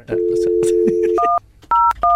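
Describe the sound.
Telephone dialing tones from a phone system: a steady low dial tone is followed by three short, clipped two-tone keypad beeps, with some talk alongside.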